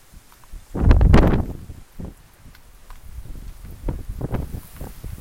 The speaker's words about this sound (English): The wind is blowing. It's a blowing wind.